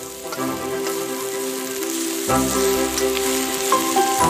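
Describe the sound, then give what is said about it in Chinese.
Chicken sizzles loudly as it is stir-fried over high heat with minced garlic, pickled chili and wild onion, giving a steady, crackling hiss with scraping stirring noises throughout and no voices. “加入蒜末酸辣椒，酸辣汁气顿时升腾，随后加入野葱，大火快速翻炒。”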